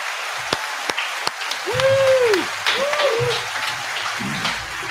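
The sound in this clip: Sparse, scattered handclaps from a small audience welcoming a guest onto a cigar-themed show, a few thin claps rather than full applause, with voices talking and murmuring alongside.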